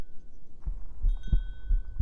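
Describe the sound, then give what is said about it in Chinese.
A human heartbeat heard with the ear close to the chest: several deep, soft thumps pulse in a steady rhythm, and a faint thin tone lingers above them. “仔细去听，感受我的心跳。感受到我心脏的跳动韵律了吗？”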